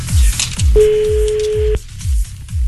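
A telephone keypad tone while a number is being dialed, one steady beep lasting about a second over a rhythmic, low, pulsing background.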